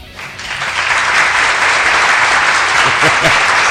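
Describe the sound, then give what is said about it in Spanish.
Applause from an audience: loud, dense clapping that swells quickly and holds steady until the end. “Un aplauso de originalidad”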